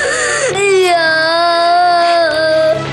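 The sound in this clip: An infant cries loudly in one sustained, wavering wail, its pitch sliding and straining with breathy catches at the start and near the end.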